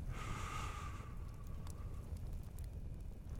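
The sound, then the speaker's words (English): A person breathing in deeply during a breathing exercise, a soft, airy rush of air that is strongest for about a second and then tapers off, quiet throughout. “Let's take another three breaths. One, breathe in”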